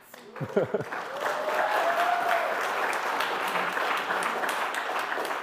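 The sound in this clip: Audience applause during a church sermon: a dense, steady wash of clapping that rises after a brief voice and carries on evenly to the end.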